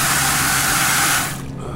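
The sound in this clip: Water gushes loudly from a pump into a clear bucket, carrying visible particles. The rush is steady and strong, then cuts off near the end, leaving a quieter trickle.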